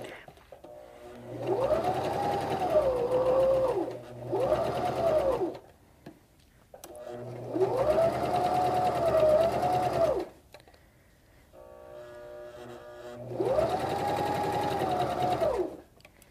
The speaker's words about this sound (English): And now I'm going to keep stitching in this direction.